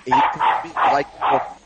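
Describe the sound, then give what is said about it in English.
A dog barks four times in a steady, evenly spaced rhythm, each bark loud, full and slightly drawn out. “He doesn't like angry old men. He always barks at him.”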